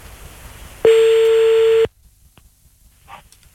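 Telephone tone as a call is redialed: one steady, loud, mid-pitched tone lasting about a second, cutting off abruptly into near silence with a few faint scattered noises.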